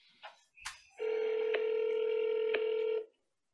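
A phone call to a fast-food restaurant in Santa Fe, New Mexico: a couple of short dialing blips, then a single steady electronic ringing tone lasting about two seconds before it stops.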